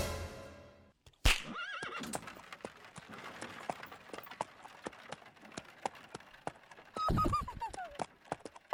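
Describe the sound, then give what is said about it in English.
Horses pulling wagons, with two sharp whinnies, one near the start and one near the end, over a steady, brisk clip-clop of hooves throughout. “We're going to make these horse and wagons go around the Devil's Tower backwards 6 times.”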